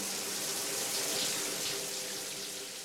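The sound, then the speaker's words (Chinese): Water running in a bathroom shower, a continuous soft splashing hiss that stays even and fairly faint from start to finish, with no voices. “里头哗啦啦的水声已经响起来了”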